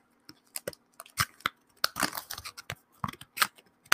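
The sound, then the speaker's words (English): Scissors cut up expired plastic credit cards in many sharp snips and crunchy cuts, irregularly spaced and sometimes bunched together, with no talk. “Credit card cutting ASMR.”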